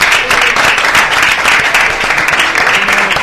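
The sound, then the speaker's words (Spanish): Dense applause from a studio audience greeting a football player during a live radio program, steady and sustained for the whole stretch, with many overlapping claps and no pause. “Un fuerte aplauso, ¿no?”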